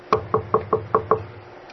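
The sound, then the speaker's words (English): Six knocks on a front door, evenly spaced and sharp, each with a brief hollow ring. They come at a brisk steady rhythm and then stop. “And they knock on the door.”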